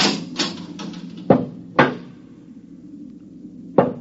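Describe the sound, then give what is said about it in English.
A lock being opened on a door: a few sharp metallic clunks and clicks with quieter rattling and scraping between them, heard alone without voices. “I think they're opening the lock.”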